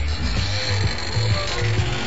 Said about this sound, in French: Le mur, il a bougé? Oncle Helmut, je crois que les activités stupéfiantes de notre ami chevelu nous ont permis d'avoir accès au passage secret.